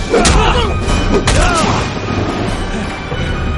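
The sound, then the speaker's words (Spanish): Sword blows strike in a fight scene: two heavy clashing hits, each trailed by a ringing, swooshing tail, over a dense, loud rumble that eases slightly toward the end. “Logna y Ardez siguen luchando. Ardez golpea repetidas veces a Logna.”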